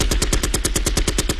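A gunshot sound effect fires as a fast, unbroken string of many sharp shots in a rapid machine-gun rhythm, loud and alone.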